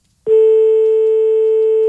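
After a town hall phone call is hung up, the telephone line gives a single loud, pure tone that starts abruptly and holds steady without a break.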